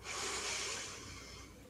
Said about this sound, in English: Another deep breath in